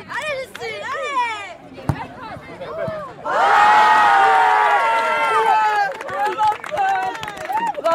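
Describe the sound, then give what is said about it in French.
Spectators cheer in a loud, sustained burst of many shouting voices at a teenage girls' football tournament held on the May 1 holiday for a club women's team's 48th anniversary. Speech comes before the cheering and returns afterward. “Devant nous, une scène enfin devenue banale, des jeunes filles, des adolescentes qui jouent au football, encouragées au bord du terrain par le public.”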